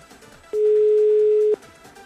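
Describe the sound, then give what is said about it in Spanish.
A single steady telephone tone sounds for about one second as a call is placed to a satellite phone, even in pitch and loud over faint background noise. “Llamar directamente por el teléfono satelital.”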